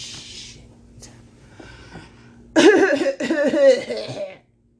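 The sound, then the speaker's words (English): A person clearing their throat: a few loud, rough, guttural rasps over about two seconds, followed by silence. “clear my throat”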